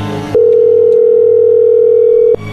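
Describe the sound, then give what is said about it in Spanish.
A telephone dial tone sounds as a call is redialed, one loud steady unbroken tone lasting about two seconds, with brief sounds just before it starts and after it cuts off. “márcale otra vez.”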